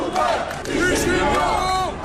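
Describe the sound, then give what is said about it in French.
A large crowd chants slogans at a Hirak protest march in Algiers, the 37th, held on the anniversary of the liberation war under heavy police presence. Many voices rise and fall together in a loud, sustained, continuous roar. “La foule nombreuse, encadrée par un impressionnant dispositif policier, a scandé les slogans habituels du Hirak, mais avec une énergie renouvelée.”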